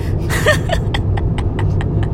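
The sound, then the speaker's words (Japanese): Low, steady road rumble of a car being driven, heard from inside the cabin, with light, evenly spaced ticks running over the engine and tyre noise. “運転中なんでねいろんな声が入ってくれてナビさんの声が。”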